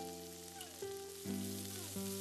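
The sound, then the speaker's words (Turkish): A hamburger patty fries in a pan after being flipped, giving a faint, steady sizzling hiss with a soft humming tone underneath. “Bir yüzü pişti şefim. Çeviriyorum.”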